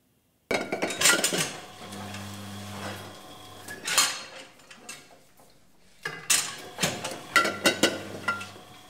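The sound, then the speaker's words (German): Wine bottles and glasses clinking at a winery: many bright, irregular chinks and rattles in bursts with brief pauses, with a low hum in places. “Und dann am Ende des Tages, wenn es dann hier klirrt, ist es ein gutes Zeichen. Das heißt, man hat irgendwas Vernünftiges in die Flasche gebracht.”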